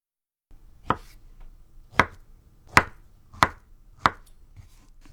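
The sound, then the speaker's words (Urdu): A knife cuts peeled halves into 1 cm pieces with five crisp, sharp chops at uneven intervals over a faint, quiet background. “ان نصف ٹکڑوں کو لمبائی میں کاٹ کر ہر ٹکڑے کے آر پار چھری چلاتے ہوئے 1 سینٹی میٹر کے چھوٹے ٹکڑے کاٹ لیجئے۔”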